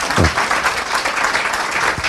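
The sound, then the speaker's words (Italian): An audience at a stage event applauds the guests seated in the front row: dense, steady applause of many hands clapping, loud and continuous from start to finish. “io vorrei fare un applauso a tutti e quattro che sono qui in prima fila e che saranno con noi.”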